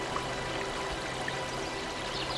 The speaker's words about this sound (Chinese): 一滴水缓缓滴下，成涓涓细流，